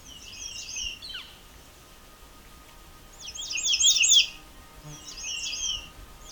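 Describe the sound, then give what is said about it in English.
American redstarts sing in a national park on the Bruce Peninsula, giving three quick bursts of high, thin, rapid song phrases over a faint, low background hum. “such as the song of these American redstarts.”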